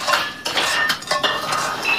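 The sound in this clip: Plates and dishes clink and rattle in a kitchen in a steady clatter of bright, sharp knocks, with cutlery-like metallic ticks scattered through, and no voices.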